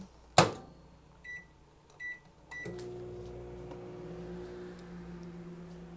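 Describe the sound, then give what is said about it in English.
A small microwave oven warming a cup of coffee: a sharp door thump, then a few short button beeps, followed by a steady, even running hum. “I'm going to plug in my coffee here because I'm talking so much that my coffee got cold. I'm going to warm it up in my little microwave here.”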